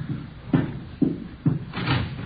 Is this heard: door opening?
yes